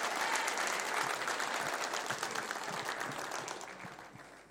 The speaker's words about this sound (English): Let's open our hearts and let's put our hands together. Let's welcome Pastor David for the Word.